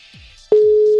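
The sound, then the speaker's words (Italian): Ringing tone of an outgoing voice call on a phone: after faint background noise, a single steady mid-pitched tone starts abruptly halfway through and holds at a constant level to the end. “Sta suonando.”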